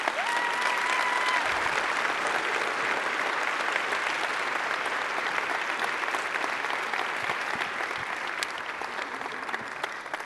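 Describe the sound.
A church audience applauds to welcome a pastor and his wife with a long, dense, steady roar of clapping that eases slightly toward the end.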